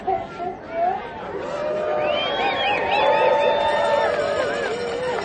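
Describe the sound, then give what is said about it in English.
A crowd of runners at the Thanksgiving Turkey Trot in downtown Carbondale cheers and whoops while waving, building from a few brief shouts into a steady swell of excited voices with high calls. “There are over 700 of you. Sounds from the Thanksgiving Turkey Trot Run in downtown Carbondale.”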